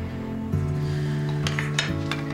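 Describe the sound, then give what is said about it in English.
Dishes and cutlery clink as dishes are dried in a kitchen, a few brief, bright clatters rising over a steady low tonal hum. “They dry dishes together.”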